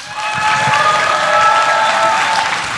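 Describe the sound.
An audience applauds to welcome a moderator at a fan convention, the clapping dense, loud and steady throughout with a slight fade at the end.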